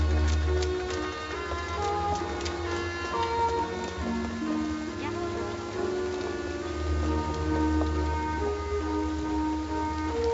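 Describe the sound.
Steady rain falls on a street outside a restaurant, a continuous dense hiss of drops with a sustained tonal, music-like layer underneath throughout.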